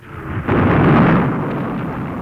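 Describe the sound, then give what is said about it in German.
Anti-aircraft battery gunfire near Saint-Lazare station in Paris during wartime: a single heavy, deep boom followed by a long, loud rolling rumble that slowly fades, with no voices. “Heilige Mutter Gottes, war das eine Bombe? Keine Bombe, Madame. Das sind die Abwehrbatterien beim Bahnhof Saint-Lazare.”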